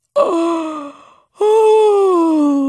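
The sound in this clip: A person yawns aloud in two drawn-out, voiced breaths, the first dropping in pitch and fading, the second longer, louder and steady, with no words spoken.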